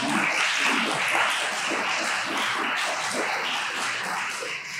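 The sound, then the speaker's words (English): Audience applause at the close of a talk on Plato before the Q&A begins, a dense, even roar of many hands sustained for several seconds and easing slightly at the end. “Yeah, you can give your applause from the”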